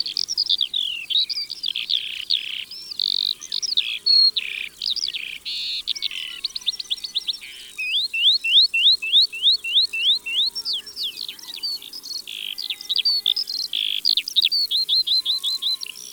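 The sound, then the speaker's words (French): A skylark sings in flight over meadows, pouring out a long, unbroken stream of rapid, high, twittering chirps and trills that stays lively throughout. “C'est vrai, l'alouette des champs aime chanter en volant au-dessus des prés. La voici.”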